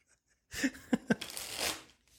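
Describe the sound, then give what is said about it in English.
Tarot cards being shuffled and handled: a steady papery riffle lasting under two seconds, with a few sharper snaps as the cards fall together. “They've got a tarot card to share with you. It's a tarot card for everybody.”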